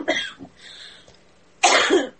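A person coughs alone: a few softer coughs come first, then a quiet pause, then a loud, harsh burst of coughing near the end.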